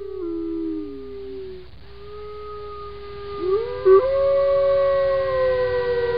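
A wolf howls in long, sustained, wavering cries. The first howl dips and fades near the middle, then higher, steady howls rise again and carry to the end.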